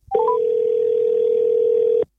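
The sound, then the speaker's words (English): Telephone tones from ringing a misplaced phone: a few short rising beeps, then one loud, steady, unbroken tone held for about two seconds before cutting off. “So where exactly do I find the phone? It should be near the coffee table. That's where I was using it last night. Can't see it. I'll ring it.”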